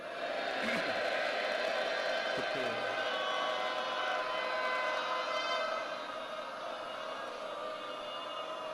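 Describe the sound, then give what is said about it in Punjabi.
A Sikh audience shouts a jaikara in honour of Mata Sahib Kaur during an Amrit Sanchar gathering: a loud, sustained mass roar of many voices that holds steady, then drops slightly in level toward the end. “ਉਹ ਆਪਣੀ ਮਾਤਾ ਸਮਝਦਿਆਂ ਹੋਇਆਂ ਉਹਨਾਂ ਦੇ ਸਨਮਾਨ ਵਿੱਚ ਇੱਕ ਵੱਡਾ ਗੱਜ ਕੇ ਜੈਕਾਰਾ ਬੁਲਾਓ।”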